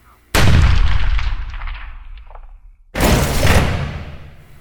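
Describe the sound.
Two loud gunshots ring out during a struggle over a gun, each a sharp blast trailing into a long rumbling decay, the second coming about two and a half seconds after the first.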